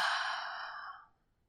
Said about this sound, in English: Inhaling and exhaling.